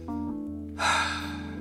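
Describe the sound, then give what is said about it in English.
A voice imitates a character breathing hard: a short voiced tone gives way to a loud, breathy gasping exhale that fills the second half alone. “She just kind of breathes hard and goes...”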